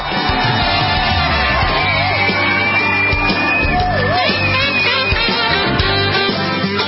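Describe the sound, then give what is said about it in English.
An audience cheers, whoops and shouts to welcome a guest onto a talk show, a dense, loud and steady roar of crowd noise that fills the whole stretch. “So would you put your hands together and please welcome Nicole Parker.”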